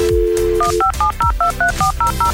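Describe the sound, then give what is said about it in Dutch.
Telephone keypad DTMF tones as a number is dialed to place a call: a quick run of many short, bright dual-pitch beeps in a fairly even rhythm over a loud, dense background. “Het is tijd om iemand te gaan bellen.”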